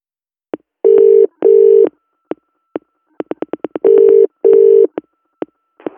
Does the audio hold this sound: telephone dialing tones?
yes